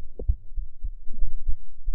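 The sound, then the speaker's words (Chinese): Fast heartbeat made of soft, muffled low thumps that repeat in a steady pulse. The thumps are heard alone, with no talk over them. “主人的心跳是不是跳得很快？”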